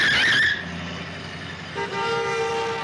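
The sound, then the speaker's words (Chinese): Car horn blaring as a car nearly crashes into them. A brief louder burst of noise opens, then a steady, sustained horn tone sounds through the final second. “我看到那辆车了，不过那辆车差一点就撞到我们了。”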